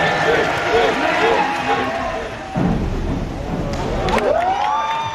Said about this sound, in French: Et du plaisir, il en a donné aussi aux peu nombreux mais bruyants spectateurs.